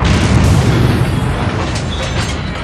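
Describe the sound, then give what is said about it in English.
A palace exploding: a loud, broad rumbling roar that swells at once and then lingers as dense, slowly thinning noise. “What was that? I think it was your wish coming true. The palace has exploded!”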